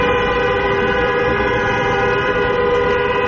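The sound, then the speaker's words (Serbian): Car horns blare from a convoy of taxis arriving at a city square during a taxi drivers' protest, forming a dense, continuous chorus of held tones that stays loud throughout. “Uz zvuk automobilskih sirena, kolona taksi vozila stigla je na Trg Slavija.”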